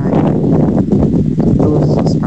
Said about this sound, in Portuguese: Meu Deus, que ventania tá fazendo lá, né? Vocês perceberam a ventania que tá fazendo lá no Pacheco, gente?